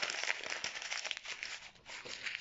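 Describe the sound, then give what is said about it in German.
A sheet of letter paper being crumpled before it is tossed into a wastebasket, heard as a quiet, continuous crinkling rustle with brief crackles and no voices. “Er wirft den Brief in den Papierkorb und fängt noch einmal an.”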